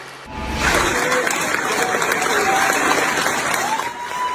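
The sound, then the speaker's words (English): Cheering and applause rise from a crowd welcoming American firefighters as they arrive in Australia to help fight wildfires, a loud, steady roar of clapping and raised voices that holds throughout. “American firefighters are cheered as they arrive in Australia to help fight the devastating wildfires.”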